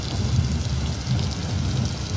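Steady heavy rain during a thunderstorm, a constant dense hiss over a continuous low rumbling of thunder, with no voices.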